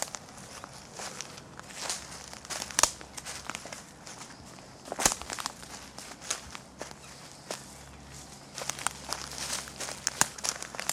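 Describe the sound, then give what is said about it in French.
Footsteps walking at a slow pace, a long run of soft, crunchy steps that repeat unevenly, with no talking. “Marcher, avancer d'un pas lent. S'arrêter.”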